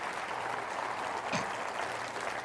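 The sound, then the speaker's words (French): A church audience applauding, a steady, dense wash of clapping that holds at an even level without a break. “Est-ce qu'on peut acclamer Dieu ensemble, juste pour le privilège qu'on a de vivre ça ensemble?”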